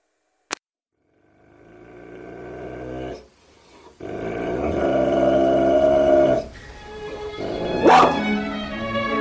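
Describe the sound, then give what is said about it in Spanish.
A dog growls in deep, rumbling stretches separated by brief pauses, rising to a louder, harsher outburst near the end, with a sharp click at the very start. “Los perros de Pavlov.”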